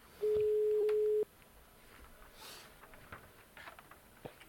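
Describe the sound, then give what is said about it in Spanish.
A telephone ringing tone plays while a call is dialled: one steady, clear tone lasting about a second. Faint background noise with a few small clicks and taps follows. “en teoría, pues esto ya, ya está marcando”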